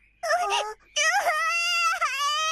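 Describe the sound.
A young child cries in two loud, high wails: a short burst first, then a long, drawn-out wail that wavers and briefly dips before carrying on.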